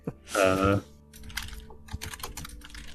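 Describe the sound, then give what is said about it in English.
Typing on a computer keyboard right beside a giant microphone: a brief voice sound comes first, then a busy run of many close, crisp key clicks in an irregular rhythm. “Unfortunately, I am typing with a giant microphone.”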